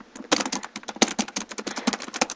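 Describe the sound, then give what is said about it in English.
Typing on a computer keyboard while entering PowerShell commands: many quick, crisp keystrokes clatter in an uneven, rapid rhythm, alone and fairly loud. “Oops, typed that all wrong, so it won't turn anything useful.”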